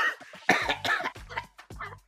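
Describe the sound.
A person coughing with something caught in the throat: a few rough, voiced coughs in quick succession, loud and alone.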